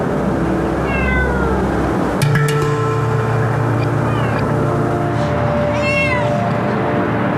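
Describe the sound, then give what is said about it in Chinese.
A cat meows a few times, each call a clear, tonal mewing cry, rising and falling over a steady low hum. “咪咪，现在我是要试探一下猫咪，不能吓到它。”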